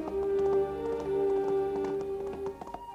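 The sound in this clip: Horse hooves trotting over dusty open ground, a rapid run of many light taps and thuds beneath a sustained tonal hum.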